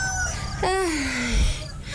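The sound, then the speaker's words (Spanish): A rooster crows at dawn, a single short, fairly faint call whose pitch falls away. “y hasta el gallo canta”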